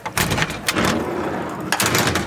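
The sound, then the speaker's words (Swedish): Hatches on a Stridsfordon 90 combat vehicle being opened: loud, heavy metallic clunks and scraping rattles in a few bursts, harsh and full-bodied. “Här sitter vi. Sex stycken soldater. Och ja, de här luckorna här går ju öppna.”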